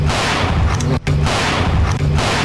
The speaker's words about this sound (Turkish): Hükümlü polisin teslim ol çağrısına saklandığı evden ateş açarak karşılık verdi.